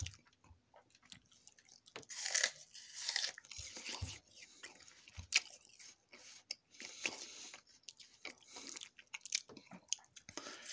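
Someone bites into and chews an apple, with many faint, irregular crunches and moist mouth sounds spread unevenly throughout, no talking.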